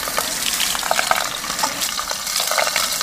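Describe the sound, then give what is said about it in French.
Water runs steadily while something is rinsed, a fairly loud, even hiss of splashing with small bright crackles throughout and no voices. “Ensuite, on va rincer gentiment.”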